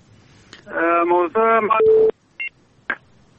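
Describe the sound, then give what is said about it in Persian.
A telephone call is cut off: a garbled voice on the line, then a short steady tone and two brief beeps separated by silence. “تماسشان قطع شد.”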